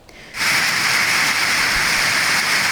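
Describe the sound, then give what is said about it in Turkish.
Hail and a heavy downpour in the Akyaka district of Kars: a loud, dense, steady hiss and roar that starts abruptly after a quieter opening moment and then holds without pause. “Kars'ın Akyaka ilçesinde başlayan dolu yağışı kısa sürede bazı bölgeleri beyaza bürüdü.”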